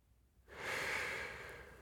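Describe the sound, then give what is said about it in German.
A single deep inhale begins abruptly as a soft, airy rush and holds steady before tapering slightly, heard alone. “Ich atme tief ein.”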